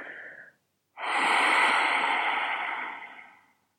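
Deep belly breathing: a brief airy breath, a short pause, then one long, steady, loud breath that slowly fades, with no talking.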